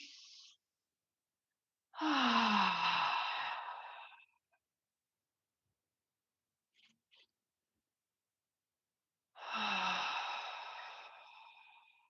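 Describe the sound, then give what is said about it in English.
Deep breathing with loud exhales through the mouth during a guided relaxation exercise: two long, breathy, sighing exhales separated by quiet, with a clipped breath at the very start. “taking a few breaths in for your nose and out for your mouth. And when you do it, really allowing yourself to exhale. So I'll do it and you'll hear me”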